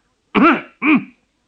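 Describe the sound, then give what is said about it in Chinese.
A man's deliberate, forceful cough, made in two short, harsh, throaty bursts close together, loud against silence. “他心里一着急，便用力咳嗽了一声。”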